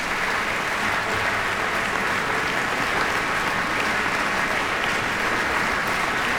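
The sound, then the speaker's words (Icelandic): A concert audience applauds cellist Cheng as he returns to the stage after a cello concerto. The clapping is thick and sustained, a constant roar of many hands that stays loud and even for the whole stretch. “Hér kemur hann aftur hinn á svið. Er fagnað ákaflega.”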